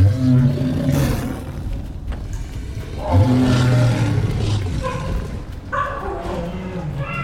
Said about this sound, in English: I didn't know cheetahs could make a noise like that.